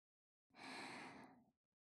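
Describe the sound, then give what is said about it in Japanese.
Gentle breath blown out softly in a single airy exhale lasting about a second, quiet and alone. “好きなだけふうふうしてあげます”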